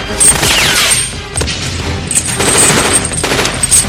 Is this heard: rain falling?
no